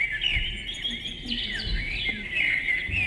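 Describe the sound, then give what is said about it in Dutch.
Birdsong from a sensor-triggered birdhouse gadget: high chirps and trills repeat continuously at moderate loudness over a low background rumble. “Dit is een birdiebox. Dat is een vogelhuisje met een sensor. Als je daar langs loopt, dan gaan de vogeltjes fluiten.”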